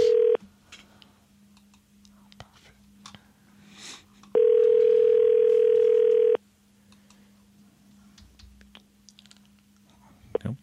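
Telephone tones as a call is placed for a staged prank lottery call. A brief tone is followed later by a loud, steady two-second tone, all over a faint constant hum with scattered soft clicks.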